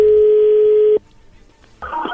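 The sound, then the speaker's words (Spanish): A telephone tone sounds as a call is placed: a steady, loud tone holds for about a second, then cuts off into near silence before a burst of line noise comes in. “vamos a marcarle en este momento”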